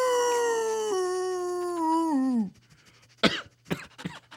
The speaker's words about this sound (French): on va passer au loup-garou avec le loup hurlant de Les Naufragés.